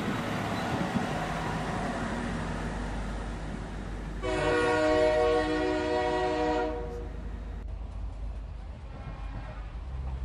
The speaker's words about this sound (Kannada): ಇನ್ನೂ ಬರ್ಲಿಲ್ಲಲ್ಲೋ, ಟ್ರೈನ್ ಬಿಡ್ತು.